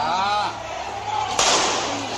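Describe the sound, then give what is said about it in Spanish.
A gunshot rings out during a street protest in Cuba, one sharp, loud crack cutting through a dense background of voices and crowd noise. “Mira, eso es tiro, eso es tiro.”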